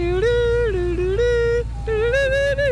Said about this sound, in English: the ice cream truck driver, he wouldn't mind switching up the playlist. There's only 8 tracks to choose from,